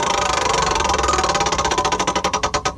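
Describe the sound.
A prize wheel spins with a fast, dense rattle of ticks that gradually slows into distinct, evenly spaced clicks toward the end.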